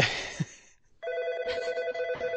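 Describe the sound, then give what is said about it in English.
A telephone rings with a bright, steady electronic tone rich in harmonics, starting about a second in and holding to the end, after a short burst of other sound at the start. “Hey, we've got a phone ringing.”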